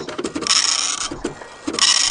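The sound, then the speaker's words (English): A dot matrix printer prints in a few rasping, high buzzing bursts separated by brief pauses, with small mechanical clicks between the runs. “Oh, wait, I have a dot matrix. Listen.”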